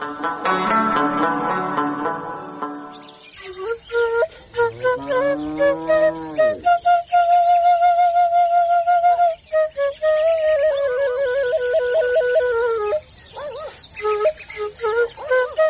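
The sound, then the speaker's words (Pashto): A whistle blown in a melodic way, with long sustained notes that waver and shift in pitch, fairly loud and continuing for many seconds, with a fuller chord-like sound at the start. “چې دا شپېلۍ څوک راغی”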